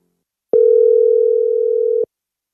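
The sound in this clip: A telephone tone: one unbroken, mid-pitched beep lasting about one and a half seconds, loud and alone, with silence before and after.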